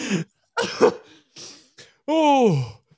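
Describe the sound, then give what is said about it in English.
Two people cough, with several short harsh bursts and throat-clearing sounds followed by a longer strained, groaning vocal sound near the end. “We have two people coughing, one that's silent because he has a fireball going on”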